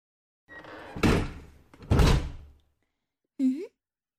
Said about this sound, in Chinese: 你妈妈怎么把门锁了？以前她办公的时候都不锁的。